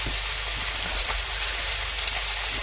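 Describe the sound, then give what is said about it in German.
Meat for goulash sears in a hot pan, giving a soft, continuous sizzling hiss that stays even and faint with no voices. “braten wir das mal schön an.”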